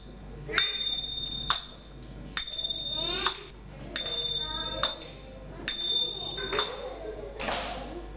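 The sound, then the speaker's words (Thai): Small Thai cymbals, a ching, are struck several times at a steady, even pace, each hit a bright, high metallic ping that rings and fades before the next. “เสียงตีฉิ่งนั่นเองค่ะ”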